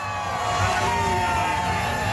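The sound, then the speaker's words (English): A crowd of supporters cheers and whoops at the send-off of a protest convoy tour leaving Victoria, BC, producing a steady, moderate wash of crowd noise with raised voices throughout. “A big crowd of supporters joins to see them all off.”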